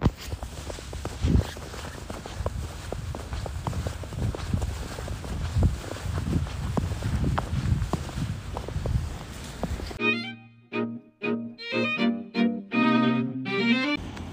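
Footsteps crunching through fresh snow about five centimetres deep in a neighbourhood park, many soft, steady steps carried along with some low wind noise.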